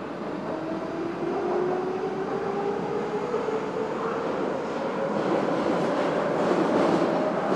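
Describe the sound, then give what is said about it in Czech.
A metro train departs with a steady, loud rumble of wheels and motor that runs throughout, while a tonal whine rises slowly in pitch as the train gathers speed. “Ukončete prosím výstup a nástup, dveře se zavírají.”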